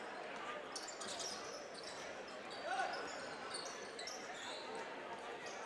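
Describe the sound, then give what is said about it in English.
A basketball being dribbled out in the final seconds of a Mansfield Senior vs Shelby game, with repeated soft, even bounces throughout under a constant wash of crowd noise. “I think they're just going to dribble this out here.”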